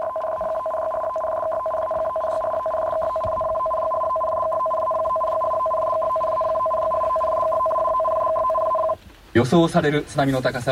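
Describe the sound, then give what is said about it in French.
Tsunami alert warning tone broadcast during an earthquake affecting Fukushima and Ibaraki prefectures in Japan: a steady, unbroken electronic tone with two pitches, held for about nine seconds before it cuts off and a voice starts speaking. “ça c'est le bruit de l'alerte au tsunami.”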